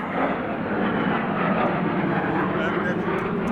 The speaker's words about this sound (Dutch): Af en toe vliegt een F-16 door de idylle heen.